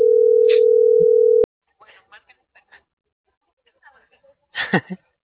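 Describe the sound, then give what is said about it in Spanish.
Telephone being dialed: a steady dial tone holds for over a second, then cuts off. A few soft, scattered clicks follow, and a short voice sound comes near the end. “Yo ya le estoy marcando.”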